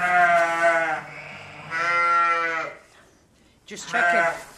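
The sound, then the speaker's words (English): A ewe bleats while delivering twin lambs: three drawn-out, wavering bleats separated by short pauses. “The ewe isn't making progress, so Olivia steps in to help her deliver her twin lambs.”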